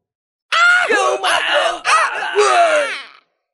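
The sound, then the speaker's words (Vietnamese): Anguished, wailing screams from a crowd of warriors struck down by blades of golden sword energy. They come in four loud, strained bursts with brief breaks between them. “Tiếng kêu thảm thiết thê lương vang lên không ngớt.”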